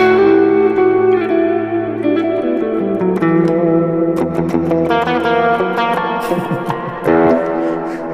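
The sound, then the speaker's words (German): Clean electric guitar through a Roland Jazz Chorus amp with its chorus effect on, playing sustained chords and single notes that ring with a wide, shimmering wobble and echo. No talk is heard. “Den Roland Jazz Chorus. Ah, ja. Ah, Roland. Clean Sound, einfach unschlagbar, der Jazz Chorus.”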